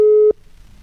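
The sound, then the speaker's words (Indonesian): A telephone ringback tone sounds while a call is placed and waits to be answered: one steady, mid-pitched electronic beep that lasts about a third of a second and then stops, leaving only faint background hiss. “Dan ini masih berdering, sobat.”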